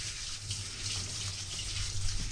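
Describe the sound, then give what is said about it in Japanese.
Water runs steadily as rice is rinsed quickly before cooking, a continuous bright hiss of flowing water at a fairly even level without talk. “まずお米を研ぎます。”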